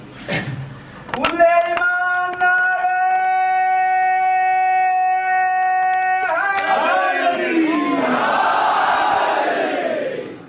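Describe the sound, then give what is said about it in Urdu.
A crowd at a religious gathering honouring Ali shouts a slogan in unison. A long, steady held vocal tone leads into a loud, massed shout of many voices that stays strong until near the end. “اب نیاز دے دیجئے اور ایک ایسا نعرہ لگا دیجئے کہ دنیا والوں کو پتہ چل جائے کہ ہم علی والے”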